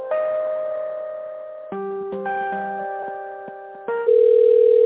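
Electronic telephone tones play while an office call is being transferred, stepping between sustained pitches and ending on a louder steady tone, with no voices.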